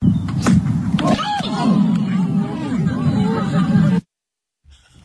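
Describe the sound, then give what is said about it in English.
A crowd of spectators murmurs and chatters after an errant golf shot flies left and strikes one of them. One sharp knock comes early, the busy babble of voices swells, and the sound cuts off abruptly near the end. “He hits this shot and it just flickers off to the left and nails one of the spectators who are standing on the side. Oh, no. Just take a listen to the audio of the shot and the reaction of the audience.”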